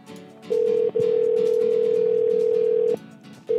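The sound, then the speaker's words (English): A telephone call forwarded to automatic voicemail gives a loud, steady single-pitch electronic tone. It breaks briefly near the start, runs unbroken for about two seconds, stops, then resumes right at the end. “Forwarded to an automatic voicemail. Oh, wow, that guy got voicemail.”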